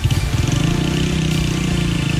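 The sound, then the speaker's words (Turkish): Motorcycle engines rev and rumble inside a children's playground, a steady low droning growl with a slightly pulsing texture that continues throughout, with no voices. “Oyun parkına motosikletle girdiler.”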